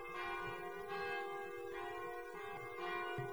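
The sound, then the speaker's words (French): Church bells peal on a grey November day, in sustained overlapping tones with fresh strikes about every second, rich, steady and loud, with no voices. “où les cloches, dirait-on, sèment dans l'air des poussières de son, la cendre morte des années.”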